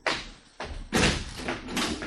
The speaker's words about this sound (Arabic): الله، يعني الباب ده؟ ايوه. مين؟ انا. طب استنى اما افتح.